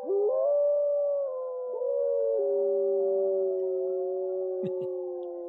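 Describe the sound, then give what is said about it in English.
Young wolves howl together in long, sustained, wavering tones. Several voices overlap and slide between pitches, loud and unbroken with no talk. “they sound something like this. Little wolves howling there.”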